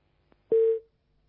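A telephone busy tone after a dropped call: one steady, mid-pitched beep lasting about a quarter second, preceded by a faint click.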